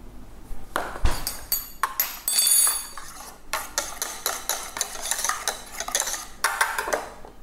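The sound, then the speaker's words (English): A spoon clinks against dishes and glassware during dalgona coffee preparation with whipped cream. Many sharp, bright metallic clinks and taps come in irregular bursts, fairly quiet and with no talking. “Okay, I'm just getting a spoon here to ladle it on the top.”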